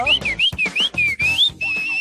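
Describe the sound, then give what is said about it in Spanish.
Whistled, gliding bird-like notes attributed to a goldfinch: a few quick rising and falling phrases, fairly loud and clear, ending on one long steady held tone. “Es un jilguerillo que los chifla.”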